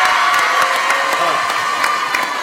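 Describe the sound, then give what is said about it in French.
Audience and high-school students in Paris applauding and cheering, a dense, loud wash of clapping mixed with shouts and whoops that holds steady throughout. “Vous pouvez vous applaudir avec les lycéens des lycées Joliot-Curie à Nanterre.”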